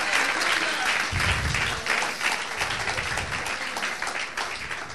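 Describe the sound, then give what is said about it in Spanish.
Congregation applauding during a church service, steady dense clapping throughout with a brief low rumble partway, sustained and fairly loud. “Dale el aplauso al grande, al rey, si se lo quieres dar en esta noche”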